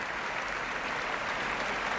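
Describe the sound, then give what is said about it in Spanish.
Dense applause and an ovation from a concert audience for a national symphony orchestra standing on stage, a steady, even wash of many hands clapping throughout, with no break or single claps standing out. “Grandes aplausos, gran ovación para la Orquesta Nacional de España”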